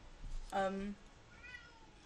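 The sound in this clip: A female cat gives one clear, short meow with a bright tonal quality, followed by a much fainter second call, both faint over a quiet background.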